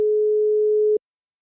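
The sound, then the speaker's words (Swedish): A telephone ringing tone after a number is dialled: one steady mid-pitched beep lasting about a second, then silence. “Jag slår in numret.”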